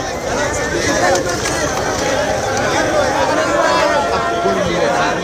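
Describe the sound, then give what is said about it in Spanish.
Thousands of migrants leaving a beach in Ceuta make a dense crowd babble. Many overlapping voices and movement merge into a continuous, loud hubbub that stays steady throughout. “Este era el sonido de ese éxodo de miles de personas desde la playa del Trampolín.”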